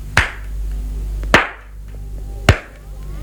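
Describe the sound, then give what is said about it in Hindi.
Three sharp hand claps sound alone, evenly spaced about a second apart, each a crisp slap with a short decay. “अब बजाता हूँ तीन बार ताली”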